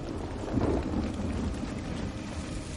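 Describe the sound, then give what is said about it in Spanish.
Heavy rain pours down as people run toward a ruined building, a dense, steady hiss with a low rumble underneath that carries on without a break. “Corren hacia un edificio en ruinas. La lluvia arrecia.”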